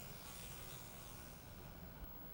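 A housefly buzzes near a snack with a steady, faint drone that holds without breaks from start to finish.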